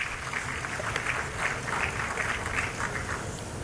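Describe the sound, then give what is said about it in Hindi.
Faint, steady applause from a crowd at an award ceremony for handloom sari weavers. It is a dense, even wash of clapping that carries on without a break. “जोरदार तालियों से अभिवादन कीजिए”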